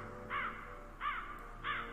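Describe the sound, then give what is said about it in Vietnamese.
A crow separated from its flock caws from a rooftop, giving three harsh, raspy calls spaced at even intervals. They are fairly faint over a quiet background. “Từ trên mái nhà vang lên tiếng của con quạ đang lạc bầy, bay vọt lên trên.”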